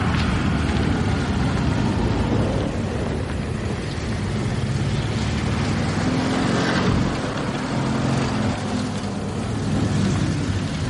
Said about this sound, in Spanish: El vehículo se adentra en un oscuro campo cuyo camino tan solo se ilumina por las luces delanteras del coche.